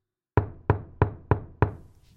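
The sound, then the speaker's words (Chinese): A door is knocked five times at an even, brisk pace. Each knock is a firm, low thud that fades quickly, with no other sound around them. “有人敲门。”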